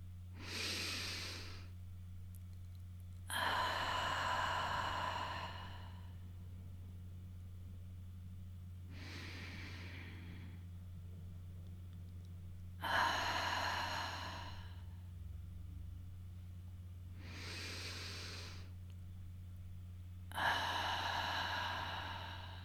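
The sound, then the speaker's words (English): Slow, deep breathing in and out repeats in about three unhurried cycles, each a soft inhale followed by a fuller exhale with pauses between. The breaths are quiet and sit over a constant low hum. “Let's breathe in and out a couple of times together.”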